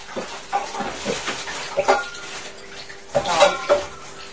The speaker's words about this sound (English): Wait, what are you doing? Mixing them up.